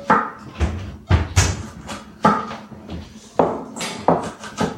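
A small bowl is taken out in a kitchen amid dishes and a cupboard being handled. Several knocks and clinks come at irregular intervals, moderately loud, with faint rustling between them.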